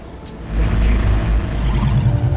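A car braking as it pulls up at a guarded barrier in a science-fiction action scene: a deep engine rumble swells sharply after a brief quiet start, then holds at a steady, heavy level.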